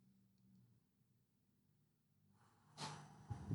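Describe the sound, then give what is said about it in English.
A slow, deep breath drawn in through the nose, heard as a soft, steady rush of airy hiss that swells over about a second near the end, faint and alone against a quiet background. “So I'm going to take a deep breath into my nose.”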